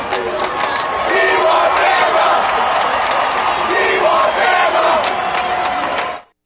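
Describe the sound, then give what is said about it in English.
UCF football fans in the stands chant "We want Bama" during a 56-17 rout of the UConn Huskies. A loud, rhythmic crowd roar of many voices holds steady, then cuts off abruptly at the end. “UCF fans in the stands, yay, living in the past, we want Bama. Still chanting out, we want Bama, during their 56-17 pasting of the Huskies.”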